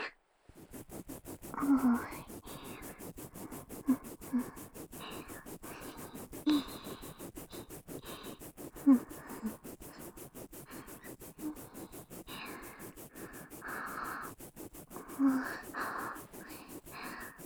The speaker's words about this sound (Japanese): 奥歯の表側って磨くとき大変だよね。どうしてもほっぺが邪魔になっちゃうっていうかさ、スムーズにはできないよね。